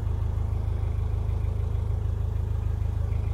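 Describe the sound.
A boat motor with an upgraded propeller runs at about 10,000 RPM on a canal near the Blisworth Tunnel, giving a steady low drone with a fast, even pulsing throb and no change in pitch.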